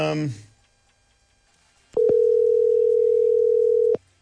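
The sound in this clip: A voicemail recording tone sounds as a single long, steady electronic beep of about two seconds, following a brief snatch of voice at the start and a short pause.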